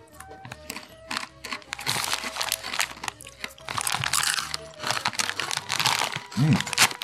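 Chips crunch as someone eats them, with many sharp, brittle crackles and crinkles in irregular bursts that grow denser through the middle.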